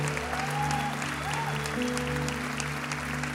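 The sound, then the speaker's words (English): Church audience applause as people put their hands together during a service. Light, steady clapping runs over sustained musical tones from start to end. “Would you put your hands together for Jesus?”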